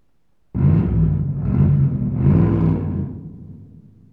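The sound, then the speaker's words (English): A car engine starts up abruptly with a loud, low rumble. It surges in three swells, then eases off toward the end. “Car. C. Car. It's a car.”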